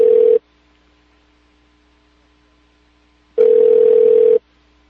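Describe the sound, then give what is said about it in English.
Telephone ringing unanswered on a call to a government office: two low buzzing ring tones about three seconds apart, quiet silence between them, with no voices. “Now the State Department's not answering.”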